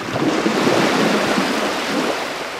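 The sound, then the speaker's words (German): Waves breaking on a Mediterranean shore on Malta make a steady, broad rushing wash that swells gently and fades slightly, with no sharply separate breakers and no voices. “Seit Menschengedenken brechen die Wellen an diesem Ufer.”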